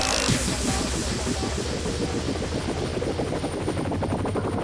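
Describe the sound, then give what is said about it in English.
A helicopter sound effect plays as a loud, continuous rotor chop. The rapid thumping pulses hold steady and dense from start to finish. “Original helicopter.”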